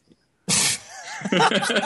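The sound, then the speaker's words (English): A stifled sneeze breaks out as one sudden, sharp burst of noise. Brief, muffled voiced sounds follow right after it. “I caught that one. Yeah, all right. Yeah, I caught that one. That was going to be a sneeze.”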